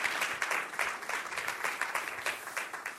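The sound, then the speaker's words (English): Applause from a church audience welcoming a speaker to the stage, a steady, even wash of many hands clapping, moderately soft and without voices. “please put your hands together. Welcome as he comes to share his story.”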